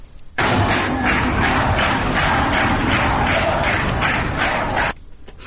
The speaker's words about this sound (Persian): در اون لحظه در اول صبح چون تعداد نیروهای امنیتی زیاد بود، تصاویری که از شعار نمیدن، اما کنار هم جمع شدن و دست میزنن.